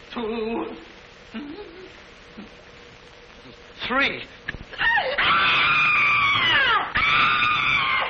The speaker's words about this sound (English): Did I hear somebody scream?